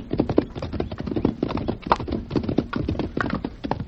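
Hooves clip-clop as horses are ridden into a narrow passage. Many quick, uneven hoofbeats overlap in a steady, busy rhythm throughout, with no talking.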